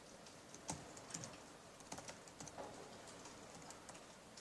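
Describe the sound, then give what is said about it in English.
Faint keystrokes on a computer keyboard: sparse, irregular clicks spread across the stretch with no talk over them. “So what we do is I'm just going to type”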